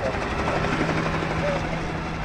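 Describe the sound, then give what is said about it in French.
Helicopter circling over a police-lined street protest in New York, producing a continuous, steady, broad rumbling whir without breaks. “un hélicoptère qui tourne dans le ciel”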